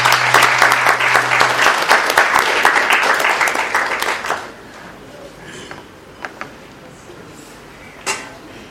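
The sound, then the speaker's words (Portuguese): Audience applause for the speakers at a workshop on the right to the city: steady, dense clapping for about four seconds that then drops away, leaving quiet background noise and a few isolated knocks. “De qualquer maneira, uma salva de palmas para os meus colegas.”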